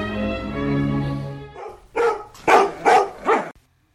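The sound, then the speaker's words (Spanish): Dogs barking: a sustained tonal sound gives way to four sharp barks in quick succession, each loud and short, followed by silence. “Los perros de Patlón.”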